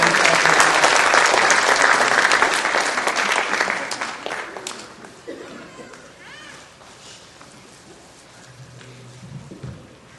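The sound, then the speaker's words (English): Audience applause welcoming performers: loud, dense clapping that gradually fades after about five seconds, leaving a quieter background with scattered movement and murmuring voices. “Y'all give them a good hand of welcome.”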